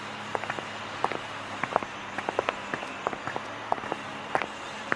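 Footsteps of someone walking toward a garden section: many soft, fairly regular steps at an unhurried pace over a low steady background hum.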